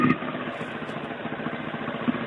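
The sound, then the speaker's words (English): A motorbike engine runs outside a pub, a steady, dense rumble that holds without a break for the whole stretch, with no clear revving peaks and no voices over it. “I'm outside a pub and I've got a motorbike playing. A motorbike is braying in your ear.”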